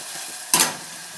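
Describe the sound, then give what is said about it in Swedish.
Chopped onion sautéing in a frying pan gives a soft, steady sizzle, broken by one brief, brighter scrape of stirring. “Men man fräser den någon minut eller några minuter helt enkelt.”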